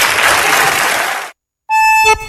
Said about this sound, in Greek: Αυτό που με ενθουσιάζει είναι το χειροκρότημα από κάτω, βέβαια, έτσι, γιατί όλοι λέμε κάτι.